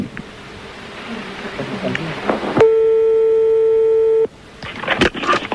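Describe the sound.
A telephone ringing during a call placed to someone's father: one steady, high electronic tone lasting under two seconds, set between stretches of noisy chatter and clatter.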